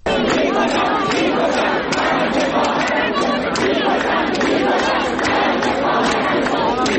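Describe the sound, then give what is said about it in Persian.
Students chanting protest slogans at Ferdowsi University of Mashhad, a loud, dense crowd of shouting voices that stays unbroken and forceful from start to finish. “چند تا از این دانشگاه ها ما صدای شعارها رو داریم که براتون پخش میکنیم، از جمله دانشگاه فردوسی مشهد.”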